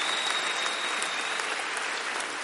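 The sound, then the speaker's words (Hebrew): Audience applause at an international conference with about a thousand attendees, a dense steady wash of clapping hands sustained throughout, moderately loud and without speech over it. “כפיים לכם.”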